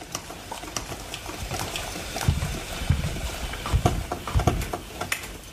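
A drip coffee machine runs a descaling cycle with a heaped spoonful of citric acid dissolved in the water tank, giving a steady watery hiss with gurgling, sputtering bursts that grow more frequent and louder in the second half.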